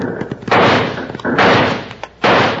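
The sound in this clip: Six-gun revolver shots in a Western gunfight: a few loud, booming blasts with short gaps between them, preceded by some smaller thumps.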